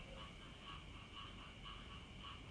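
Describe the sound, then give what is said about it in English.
Frogs croak outside a villa in Bali, forming a steady, faint chorus. Their calls repeat in an even, rhythmic pulse with no talking over them. “You might actually be able to hear the frogs outside my villa right now.”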